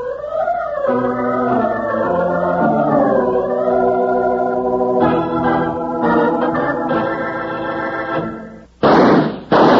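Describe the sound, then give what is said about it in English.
Two gunshot-like bangs ring out right at the end, sharp and loud, after a long stretch of brassy, sustained music that swells and shifts before cutting off just ahead of the shots. “Hear those two shots”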